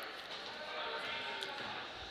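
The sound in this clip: A basketball is dribbled during an Exeter versus Elizabethtown boys basketball game, with a few faint bounces over a steady background and a voice talking throughout.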